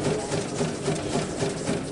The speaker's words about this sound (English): Several stop to watch a machine make single-serving bags.